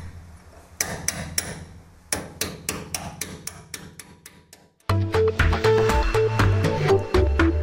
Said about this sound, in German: Im Frühling soll der knapp 110-jährige Vadian dann wieder auf seinem Sockel stehen. Bis es so weit ist, muss er aber noch einen Bohrhammer, ein Schweißgerät oder einen Meißel über sich gehen lassen.